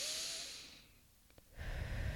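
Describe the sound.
Soft, deep breathing during a guided meditation. A breathy rush fades into a short quiet gap before the next airy breath swells back in, all faint.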